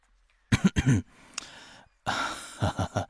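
Throat clearing: a few short, rough bursts, a breathy pause, then another run of gravelly clearing sounds that is slightly hoarse.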